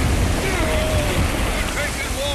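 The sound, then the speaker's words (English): Surf and waves wash around a small, overloaded boat carrying five men and heavy cargo as it nears the breakers. The water makes a steady, loud, roaring rush that keeps up the whole time without pause. “We'll be sunk to the bottom after one wave. And here they come. Brace yourselves.”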